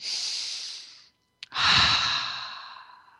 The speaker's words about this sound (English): So let's take a few deep breaths.